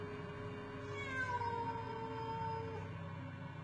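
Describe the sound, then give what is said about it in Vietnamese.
A stray cat meowing from a persimmon tree branch, a drawn-out, wavering yowl that bends in pitch and carries over a steady low background noise, with no talking. “Đáp lại ông là tiếng con mèo hoang. Nó đậu ở trên cành cây thị, nó cào móng xèn xoẹt, nó kêu lên từng hồi.”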